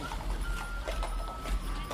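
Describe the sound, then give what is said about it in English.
Horse-drawn carriage clip-clopping along a street in a historic town centre preserved as a state park, where carriages replace cars; many hoof clops in a steady rhythm over constant, fairly loud background noise. “You can walk streets where cars have been replaced by horse-drawn carriages.”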